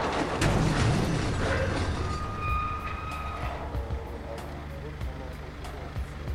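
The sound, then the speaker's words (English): A damaged lift squeals as its platform rises: a steady low mechanical rumble, with a thin high-pitched squeal held through the middle. “The damaged lift squealed, and the platform rose.”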